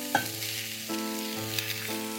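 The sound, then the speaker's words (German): Fried rice with peas and scrambled egg sizzles steadily in a pan, a continuous hiss with a few faint stirring bumps. “Bratreis ist hier jetzt so schön gebraten und soweit fertig zum Anrichten. Da kommen jetzt noch Erbsen dazu. Bisschen was Grünes. Unser Rührei geht da natürlich jetzt wieder dazu.”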